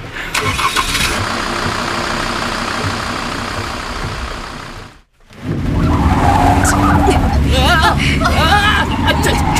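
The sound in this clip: A car engine starts and roars as tyres skid and the car drives off through a deserted Chinatown street, loud and continuous with a brief cut midway, with voices talking over it.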